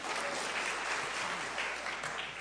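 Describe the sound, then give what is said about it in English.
A church audience clapping: dense, sustained applause from many hands, even and unbroken from start to finish at a fairly soft level. “give the Lord a clap offering.”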